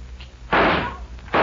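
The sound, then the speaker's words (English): Gunshots fired at tin cans during target practice on a ranch: two loud, sharp bangs about a second apart, each with a short ringing tail, over a low background rumble. “There's another one, Foy. That does it. You got every darn one of them. Yeah, it looks like I shot up every tin can on the ranch, but it's good practice.”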